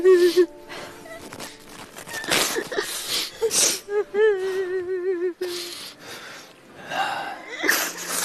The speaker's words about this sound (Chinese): 您不哭了啊，不哭了